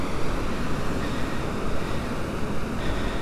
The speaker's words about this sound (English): The tide's on its way in now though, so there's not much beach left.